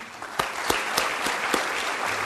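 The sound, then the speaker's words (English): Scattered, light clapping from a small group at a board of trustees meeting. A few sharp separate handclaps stand out over a steady low hiss. “we can applaud anyway”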